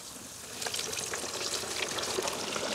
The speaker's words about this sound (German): Ich werde jetzt live für euch diesen leckeren fränkischen Eischgründer Karpfen frittieren. So, der muss gut paniert werden. Der wurde vorher schon gewürzt. Genau, jetzt kommt er hier rein.